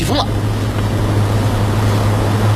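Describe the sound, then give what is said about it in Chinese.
Heavy rain and gusting wind during a lightning storm over a mountain city, a loud, steady, unbroken roar. “起风了、啊！雨太大了，我就先进屋了啊！”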